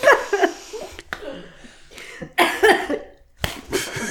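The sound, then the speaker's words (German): Harsh coughing from a person who has choked on something, coming in several loud bursts with laughter mixed in between. “Und dann verschlucke ich mich zum dritten Mal.”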